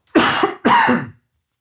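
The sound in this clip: Two rough coughs come from an itchy throat. The first is longer and slightly broken, and the second follows close behind. Both are loud and heard alone, with silence after.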